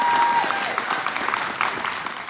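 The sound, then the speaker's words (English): An audience at a church service applauds a panel with dense, steady clapping that fills the whole clip and eases off slightly toward the end. “Hey, give these guys another round of applause.”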